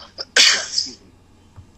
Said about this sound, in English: God, coughing right now. It's like, it scares everybody, right?